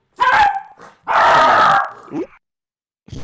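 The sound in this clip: Puppy barking in a few short bursts of yaps and yelps, one drawn out longer than the rest, moderately loud with no talk.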